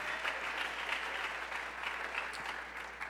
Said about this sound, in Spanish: Alguien dele un fuerte aplauso.